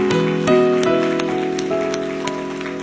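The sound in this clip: A church audience applauds during a worship service, a dense rain-like patter of clapping running throughout over sustained tonal music with steady pitched notes.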